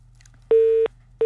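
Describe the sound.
A busy tone sounds after a phone call's line is cut off: steady, mid-pitched beeps with even silent gaps. One full beep is followed by the start of another.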